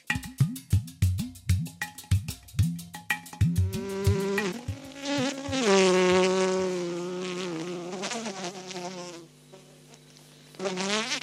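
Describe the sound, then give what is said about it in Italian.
A honeybee buzzes right on a microphone inside a beehive. A run of short, pulsing buzzes gives way to a sustained, wavering drone whose pitch bends up and down, then a brief lull before the buzz returns. “Si è posata sul nostro microfono, abbiamo avuto un movimento istintivo di paura, confessiamo che entrare nell'alveare non ci è molto piaciuto per paura di punture.”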